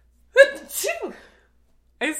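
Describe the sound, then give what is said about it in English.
A single loud, voiced sneeze with a sharp burst and a trailing, breathy release, followed after a short pause by a brief vocal sound. “I sneezed on a podcast.”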